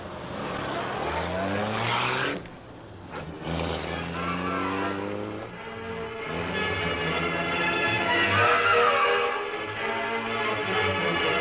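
A car engine pulls away and drives off down a street, its motor droning and revving with shifting pitch, dipping briefly before surging on again.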